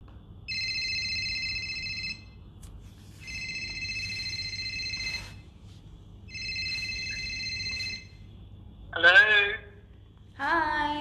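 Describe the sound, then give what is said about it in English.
A telephone rings three times in even electronic bursts with pauses between them as a host calls a listener, followed by a voice answering. “Let's ring up another caller.”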